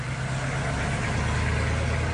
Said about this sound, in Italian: Salutandoci con la zampa, lui ripartì a bordo dell'enorme camion.